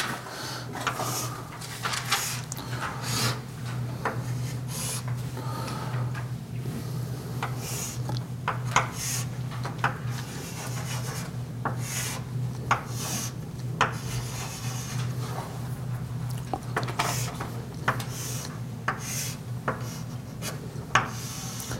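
Pen strokes drawing a space-time diagram: many scratchy, rubbing strokes come in irregular bursts over a steady low hum, with no voices.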